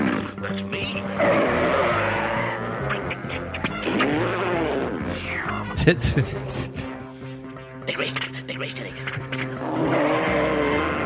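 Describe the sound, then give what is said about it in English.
A man's voice imitates a cartoon car motor, revving and whining in sweeping pitch bends. It is loud and nearly continuous, with squealing, skid-like accents and growling passages. “This motor is so obviously just a guy going...”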